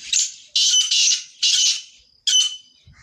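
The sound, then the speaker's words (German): Harsh, grating squawks of a grey partridge, a small ground-dwelling game bird, come in a series of five raspy bursts with short gaps, loud and alone. “das Rebhuhn. Seinen Ruf zu hören ist eine absolute Seltenheit”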